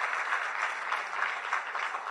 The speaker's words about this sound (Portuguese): Dê uma salva de palmas a Jesus.